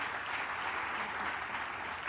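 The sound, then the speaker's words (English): An audience claps in steady, dense applause, a fairly faint, even rush of many hands with no clear breaks and no speech over it. “Clap for her.”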